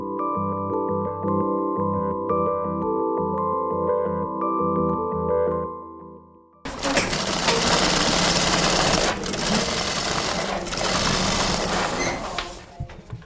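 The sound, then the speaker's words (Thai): Sewing machines run in a small Melbourne workshop where experienced women sew hi-viz vests from recycled material. A steady whining motor tone gives way halfway through to louder, dense, continuous machine noise. “ที่เวิร์กช็อปเล็กๆ ที่นอตเมลเบิร์นนะคะ มีกลุ่มสตรีที่มีประสบการณ์ด้านการเย็บผ้ากำลังทำงาน”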